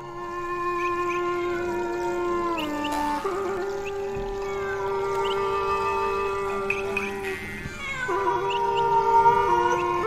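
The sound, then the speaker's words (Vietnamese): A cat yowls and caterwauls at night in a mountain forest, with drawn-out, wavering tonal cries that hold fairly steady in loudness and swell slightly near the end. “tiếng con mèo vẫn cứ kêu xa dần, xa dần, lẫn vào trong đêm tối của núi rừng.”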